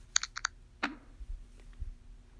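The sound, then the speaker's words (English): Smartphone screen reader feedback sounds for a back-and-forth scrolling gesture on a page no longer than one screen: three quick, bright clicks, then a single sharper tick with a short fading tail, all faint and without speech. “So if I tried to do the scrolling back and forth gestures, which is right then left or left then right, you'll hear this.”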